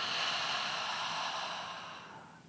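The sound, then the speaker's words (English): A soft, airy breath during a Christian meditation exercise, drawn in through the nose and released through the mouth as a long hiss that slowly fades. “So let's go ahead and start and breathe in through our nose, out through our mouth.”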